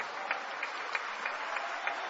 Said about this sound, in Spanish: Alguien que le dé aplausos al Señor por eso.